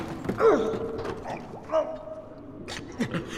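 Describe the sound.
A door creaking open: drawn-out, squealing creaks that slide up and down in pitch, mixed with a few dull clunks from the hinge or latch, at moderate volume.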